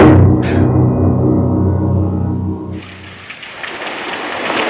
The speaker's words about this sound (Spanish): Era de noche y llovía. Al caer era lluvia.